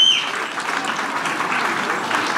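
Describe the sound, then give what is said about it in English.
An audience of young people at a parliamentary-style public forum breaks into applause. The clapping is continuous and full for about two and a half seconds, starting slightly louder and then holding steady. “Huge round of applause.”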